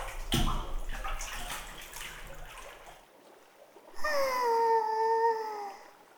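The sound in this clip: Hot water sloshes and washes as someone steps into a jacuzzi bath, a steady splashing for about three seconds, then a long falling sigh from a voice.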